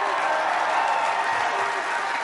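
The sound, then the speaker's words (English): Steady, dense audience applause, a continuous wash of many hands clapping at an even loudness throughout, with voices faintly mixed in. “But don't clap too hard.”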